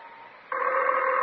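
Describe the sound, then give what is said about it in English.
A telephone ringing: a steady, buzzy electronic ring tone begins faintly, then jumps abruptly louder partway through and holds, with no talk. “the phone. I know it's the phone.”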